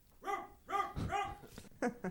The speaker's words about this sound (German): In der Ferne bellt ein Hund.